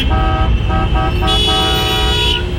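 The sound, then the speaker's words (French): Car horns honk at a green light in traffic: several loud, sustained blasts follow each other, and a higher-pitched horn joins over a long final blast. “Notamment le volume des klaxons au feu vert.”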